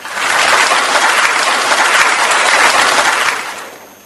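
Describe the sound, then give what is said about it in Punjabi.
Applause from an audience rewards a correct answer in a quiz about the Punjabi script. A loud, dense wash of clapping holds steady for about three seconds, then fades out. “Gurmukhi ਲਿਪੀ, ਤੇ ਤੁਹਾਡੇ ਲਈ ਅਸੀਂ ਤਾੜੀਆਂ ਵਜਾ ਦਿੰਦੇ ਹਾਂ ਜੀ।”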